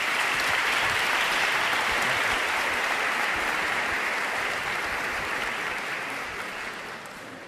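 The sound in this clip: Strong audience applause in a school hall welcoming a priest before his talk, a thick, steady roar of many hands clapping that holds evenly for several seconds and then gradually fades toward the end, with no speech over it.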